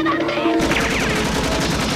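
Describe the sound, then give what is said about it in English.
A gunshot sound effect for a pretend finger gun in a children's tale: an abrupt, loud burst of rapid crackling reports after a brief quiet lead-in, continuing densely to the end. “Whoop, my finger's the gun. Bang.”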